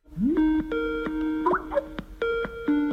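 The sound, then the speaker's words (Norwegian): A Skype call ringtone rings out in a few bright, harmonic tonal notes, the first sliding upward before holding steady, with short gaps between notes. “nå skal jeg ringe henne på Skype, så ser vi hvordan dette går.”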